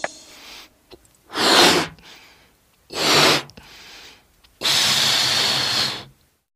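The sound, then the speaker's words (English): A balloon being handled gives three bursts of hissing, squeaky rubbing, the first two short and the last longer, separated by near-silent pauses. “That's right. It's a balloon.”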